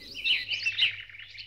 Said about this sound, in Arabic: من الطيور حسون، بلبل، كناري،